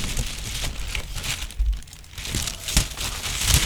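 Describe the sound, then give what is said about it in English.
A paper envelope is torn open with crinkly rustling and several sharp tearing crackles, uneven in loudness and with no voices. “He's opening the envelope, just like Ed McMahon, right?”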